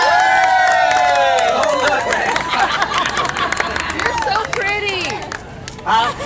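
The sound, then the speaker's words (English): An audience cheers, whoops and hollers over clapping to welcome a host's daughter as she is introduced. Loud rising and falling whoops ride on dense crowd noise and chatter throughout. “so I want you to put your hands together. Give her a hoot and holler welcome”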